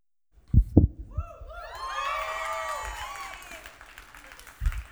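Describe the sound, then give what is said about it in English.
A church audience cheers and applauds. A few dull thumps lead into a swell of high whoops and voices over clapping that slowly dies away. “If it's your first time here and you're wondering why they cheered me on, it's not my good looks.”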